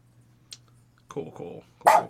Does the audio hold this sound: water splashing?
no